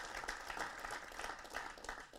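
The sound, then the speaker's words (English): A church audience claps for a man asked to stand, a faint but steady patter of many hands with gentle swells. “Come on, y'all, give him a hand clap, amen.”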